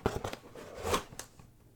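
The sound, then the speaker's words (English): Cardboard box being peeled open: rough crackling and scraping tears in short irregular bursts, with no talk. “All right, let's open this sucker. Okay? Just peel the box off.”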